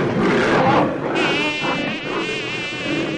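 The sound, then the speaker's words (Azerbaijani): Buzzing of an annoying fly, a steady, nasal whine that holds on continuously and fairly loud, with its tone wavering slightly as it hovers. “Yerindən durub zəhlə tökən milçəyi tutmağa çalışdı.”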